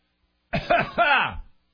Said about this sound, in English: I was just going to cough that out.